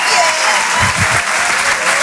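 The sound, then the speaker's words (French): Audience applause for a comedian at a comedy club stage show: dense, loud, continuous clapping from many hands that holds at a steady level from start to finish, with no clear break or swell. “On peut l'applaudir très très très très fort.”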